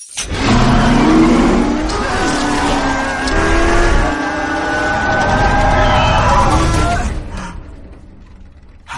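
A race car engine starts and revs in a film scene, giving a loud, sustained mechanical roar with some creaking. The roar holds steadily and then drops off near the end.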